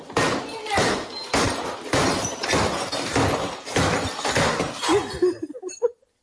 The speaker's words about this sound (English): I'm going to use a baseball bat, just like they did in Office Space.